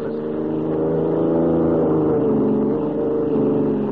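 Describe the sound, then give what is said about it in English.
A car engine drones steadily as two people drive alone toward a state capital 140 miles away. The low, even hum holds throughout without breaks or voices. “White and Lois, who are driving alone to see the governor in the state capital 140 miles away.”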